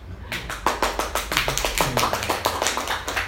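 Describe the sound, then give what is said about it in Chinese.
Thin, half-hearted clapping from a small audience that was just urged to clap harder. Many scattered, sharp hand claps come in an uneven, loosely rhythmic patter at moderate loudness. “再来一次啦，用力一点啦，拍那个、啊、好像是同情的掌声一样。”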